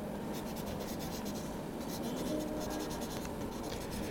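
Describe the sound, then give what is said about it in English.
A pen scratches steadily across paper as a hotel registration card is filled in, a faint, continuous scribbling with small irregular strokes and no pauses. “Can I see your passport, please? Here you go. And could you fill in this registration card?”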